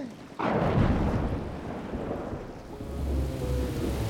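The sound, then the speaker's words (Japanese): Heavy rain in a storm on the sea aboard a sailing ship, bursting in with a sudden loud crash like thunder and then settling into a steady, dense roar of downpour, with no voices. “来たわ。 ひどい雨、 今日はだいぶ荒れそうなのよ。”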